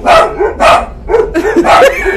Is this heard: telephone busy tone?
no